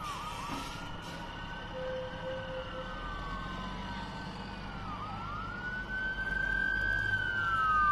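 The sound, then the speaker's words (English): Police car sirens passing at night in Cranston, a wailing tone sweeping slowly up and down in pitch that grows louder toward the end, over a low rumble of traffic. “And we have more sirens.”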